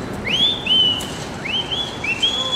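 A person whistles outside a building where a family member lives, trying to call her to the window: a few clear, high-pitched whistled notes, several sliding upward and then holding steady, over soft background noise.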